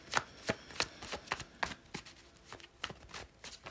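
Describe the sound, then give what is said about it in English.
Playing cards are handled in a quiet series of soft, sharp flicks and snaps, many of them, irregularly spaced, with no talking. “A lot of cards. Yeah, I'll keep those. And one fell on the ground.”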